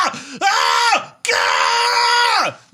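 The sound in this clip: A man screams with raw, guttural, strained cries. Two long sustained screams come one after the other, the second longer, each with a harsh throaty edge and a pitch that sags at its end, with a short rough cry just before them.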